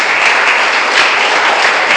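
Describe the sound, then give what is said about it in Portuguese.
Congregation applauding in a church: dense, steady clapping fills the whole moment, loud and even from start to finish with no single voice standing out. “Aplauda Jesus por isso. É bonito. Faça isso.”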